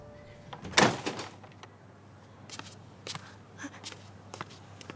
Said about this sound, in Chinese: 把门打开。